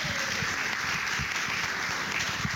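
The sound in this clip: A studio audience applauds at a Raptor Weekend event of the Audubon Society of Rhode Island in Bristol, Rhode Island. The clapping is a steady, moderate patter that holds evenly without clear peaks.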